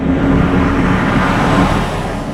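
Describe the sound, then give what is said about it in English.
Heavy trucks hauling construction materials rumble along rural roads around a semiconductor plant construction site, making a loud, steady, low engine drone and road roar that holds evenly throughout without voices. “Heavy trucks hauling all sorts of materials rumble down the rural roads surrounding Intel's New Albany site.”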